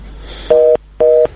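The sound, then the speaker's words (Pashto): Telephone busy tone as a call fails to connect: two identical short, steady beeps, evenly spaced and fairly loud, with a faint hiss between them. “متاسفانه تلیفون بند دی.”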